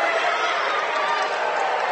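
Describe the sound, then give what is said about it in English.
A basketball home crowd of Fort Loramie fans whoops and cheers after an offensive foul by Legacy Christian, a dense, steady roar of many voices that holds at an even, loud level throughout. “Overshot it, offensive foul. Legacy fans don't like it. Redskin crowd whoops it up.”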